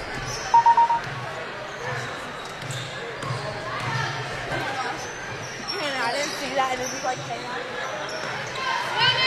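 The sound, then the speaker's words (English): Basketball dribbled on court during a women's game as the ball handler works for a shot in a half-court set; repeated bounces sit under talk and steady background noise. “Now kind of dribbling around looking for one shot here in the half.”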